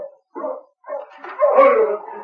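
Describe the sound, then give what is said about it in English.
Barking and yipping from a sled dog team: a few short bursts, then a longer, denser stretch of barking, fairly loud with no talk over it. “Hey, there's somebody coming in with a dog team.”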